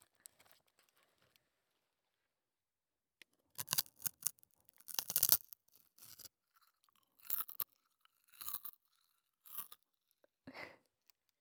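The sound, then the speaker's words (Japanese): Crunchy chewing of food, heard as a series of loud, crisp bites and chews that come in irregular bursts with quiet gaps between them, with no talking. “じゃあ、食べる音いっぱい聞かせてやるなー。”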